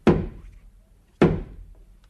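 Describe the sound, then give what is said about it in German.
A house door is knocked on twice. Each knock is a heavy, hollow thud, about a second apart, with a short decay and nothing else around it. “Dann schlage ich noch mal an das Haus, damit die Mutter kommt heraus.”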